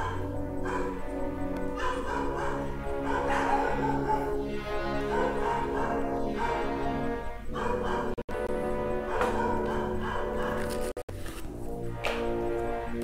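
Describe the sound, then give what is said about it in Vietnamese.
Dog barking, yipping and whimpering fills the whole stretch. It is a loud, dense and unbroken run of overlapping calls with only two very brief dropouts. “Bắt đầu đến giờ chó sủa. Bắt đầu đến giờ chó sủa.”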